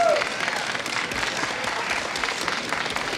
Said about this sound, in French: On l'applaudit bien fort.